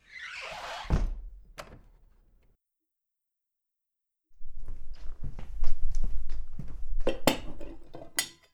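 Plates are set out on a table for lunch, with a few knocks and clinks at first. After a pause comes a longer run of many light clatters and taps of crockery, with no talking.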